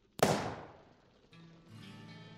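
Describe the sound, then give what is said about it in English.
A single sharp gunshot cracks outside an office and fades through a long decaying tail, followed by a softer, steady low rumble and hum. “What's that? Shooting out in front of this here office!”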